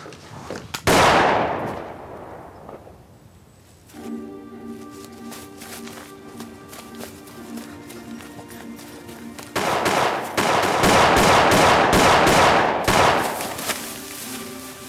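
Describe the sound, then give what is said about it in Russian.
Pistol gunshots fired into the sky in a film scene: one loud crack, then a dense burst of many rapid shots later on, with steady sustained tones running underneath. “выстрелил из пистолета в небо.”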